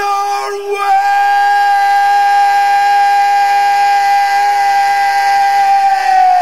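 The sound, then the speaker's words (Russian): Whistles blow loudly in one long, steady, high tone. After a short start it holds unbroken for over five seconds, with a faint hiss beneath. “Громче, громче, громче, свисточки!”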